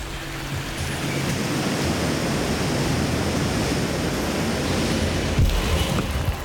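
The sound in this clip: Water flowing along a slippery, rocky stream bed, a dense, steady rushing sound that stays loud throughout, with one brief louder burst near the end.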